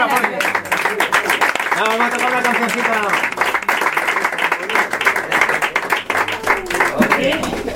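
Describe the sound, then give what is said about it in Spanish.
A bookshop audience applauds at a live music anniversary event, with steady clapping running throughout and voices talking over it. “Un aplauso.”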